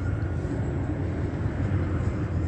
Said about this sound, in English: that's the state playing a tape of a sound of a plane taking off